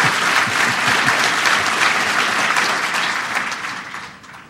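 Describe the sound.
An audience applauds to welcome the speaker at the 2006 Barbara K. Olson Memorial Lecture. The clapping is dense and sustained, then gradually fades toward the end.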